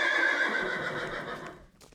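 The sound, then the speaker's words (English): A racehorse gives one long, loud whinny that gradually fades over about two seconds, with soft hoof clops beneath it. “I understand this horse very well. I know what he's saying to me.”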